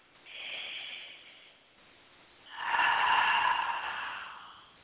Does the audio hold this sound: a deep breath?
yes